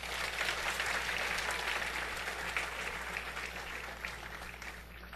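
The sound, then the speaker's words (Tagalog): An audience applauds during a church service. Dense, steady clapping fills the whole clip, easing slightly toward the end, over a faint low hum. “Palakpakan po natin”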